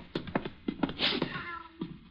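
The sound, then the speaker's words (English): A black cat meows in an apartment-building basement, a few faint, brief cries with one longer, drawn-out call in the middle. “Here's your cat.”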